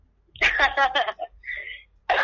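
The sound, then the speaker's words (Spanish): A short fit of harsh, rapid coughing from someone who has just choked comes in a tight cluster of bursts, followed by a brief vocal sound and a voice starting up again at the end. “Tiene tos, me va a contagiar por... No, es de que me ahogué nomás.”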